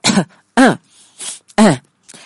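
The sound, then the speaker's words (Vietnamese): Light coughs and throat clearing from an embarrassed man sitting over a cup of tea: a few short, voiced 'ahem' bursts with fainter breaths between them, heard alone without speech. “vẫn tiếp tục xấu hổ ngồi đấy, ho nhẹ vài tiếng.”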